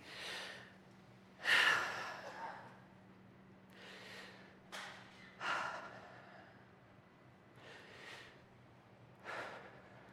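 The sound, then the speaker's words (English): A group takes deep breaths together: several long, airy inhales and exhales separated by quiet pauses, over a faint steady low hum. “We're going to take three deep breaths together.”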